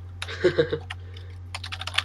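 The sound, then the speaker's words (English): Computer keyboard keys clicking in two short bursts of typing, a few taps, then a quicker run after a brief pause, faint over a steady low hum. “Ah, I can't type all of a sudden.”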